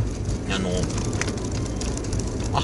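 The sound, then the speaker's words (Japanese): A steady low rumble of road and engine noise fills a car cabin while driving, continuous and fairly loud. A voice talks over the drone throughout. “これ運転しながらやってます。はい、運転しながら配信するみたいな、配信はしてないですね、運転しながら収録してる”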